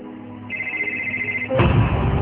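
A mobile phone rings with a steady, high electronic tone lasting about a second, then gives way to a louder, fuller burst of sound.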